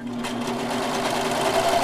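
A sewing machine running at a steady speed, giving an unbroken whirring hum with a constant low motor tone and no talk over it.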